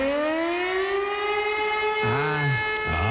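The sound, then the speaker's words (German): Hamburg's storm flood warning siren sounds during a test: a loud, steady wail rich in overtones, its pitch creeping slowly upward, with a lower warbling tone joining near the end. “dann einfach mal nicht wundern. Hamburgs Sturmflutsirenen werden getestet. Muss man mal gucken, ob die noch funktionieren.”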